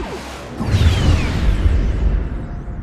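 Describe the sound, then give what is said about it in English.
A sidearm is fired: a sudden whooshing burst with a falling whine, then a loud low rumble that carries on to the end. “Irk drew his sidearm with his last remaining strength and fired.”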